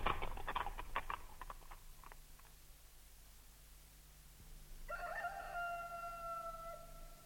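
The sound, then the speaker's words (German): A rooster crows at night, its sustained, strained harmonic call rising in over the last couple of seconds after a few sharp knocks and a quiet stretch. “Hörst du den Hahn krähen”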